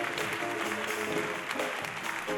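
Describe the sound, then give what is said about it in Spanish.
An audience at a concert in a theatre applauds with steady, dense clapping throughout, a continuous even wash of sound with no talking. “Un aplauso para él.”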